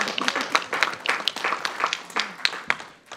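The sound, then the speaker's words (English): Applause breaks out at a community gathering as a boy is called forward to lead the Pledge of Allegiance, a steady stream of many overlapping, irregular claps at moderate loudness that eases slightly at the end. “Let's give him a round of applause and bring him forward, huh?”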